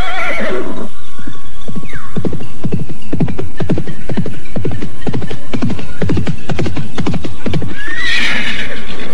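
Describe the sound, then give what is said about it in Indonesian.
A horse neighs over a long run of steady clip-clopping hooves. The hoof strikes are many and evenly spaced, and loud whinnies come at the start and again near the end. “Benar-benar kuda yang hebat.”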